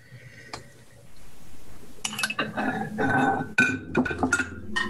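Three bowls of ice cream are carried in from the kitchen, setting off light clinks and rattles of dishes and spoons: a couple of soft knocks at first, then many quick, fairly quiet clinks.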